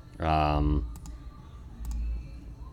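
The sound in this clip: Computer mouse clicks come as two crisp double clicks, sharp and brief, after a short burst of voice.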